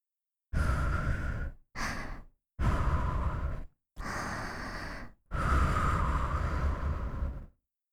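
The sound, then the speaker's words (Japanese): A person blows breath outward in five soft, airy exhalations separated by brief pauses. The last is the longest, and there is no talk. “その前に、まずは息を吹きかけてみましょう。”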